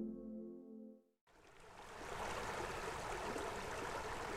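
A small brook flows through summer countryside at Pudasjärvi, Finland. A steady, broad rush of water starts abruptly after a short passage of music and carries on evenly, with no voices.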